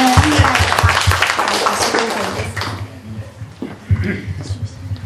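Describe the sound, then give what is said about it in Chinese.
A church audience applauds God with scattered, uneven clapping, mixed with a voice talking and louder early on before thinning out. “我们读了这个，给神一个掌声，好不好？我们给我们自己一个掌声，”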